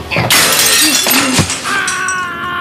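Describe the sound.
Window glass shatters as someone jumps out through it: a sudden loud crash bursts in, a second smash follows about a second later, and bright tinkling, ringing fragments trail off afterward.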